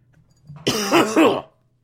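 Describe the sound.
A throat-clearing cough from someone with something caught in the throat: one short, loud, raspy burst with two harsh voiced pushes close together, heard alone after a faint breath.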